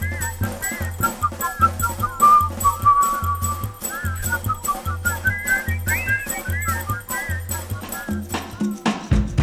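Several whistlers of a whistling choir carry a wavering melody whose notes bend up and down, over a steady, rhythmic low pulse that repeats throughout.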